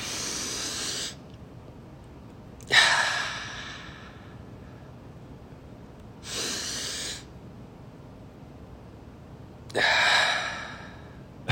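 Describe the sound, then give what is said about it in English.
Slow, deep breathing during a guided breathing exercise: four long, airy breaths, each lasting about a second, spaced a few seconds apart over near silence, with no talk. “They're just hearing you breathe.”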